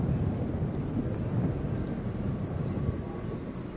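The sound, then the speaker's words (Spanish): Strong wind buffets a microphone, producing a steady, low, rumbling roar with crackly turbulence that lasts the whole time without letting up. “Pasa que el viento es muy fuerte y se torna un poco difícil.”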